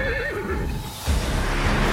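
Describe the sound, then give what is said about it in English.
A horse whinnies in a video game with a loud, wavering, high neigh lasting about a second. A burst of rumbling, hoof-like noise follows. “shows up on horseback to save V. Get on! I'm on your side! Hurry!”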